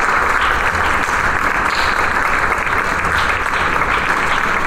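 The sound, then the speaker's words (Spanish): Standing ovation from a concert audience and orchestra after a Mozart concerto performance, with thick, continuous clapping held at an even, loud level throughout, without pauses or swells. “maestro Estebané, que recibe los aplausos del público de pie y que el propio maestro le saluda de mano, y la propia orquesta está de pie para saludarle y aplaudir.”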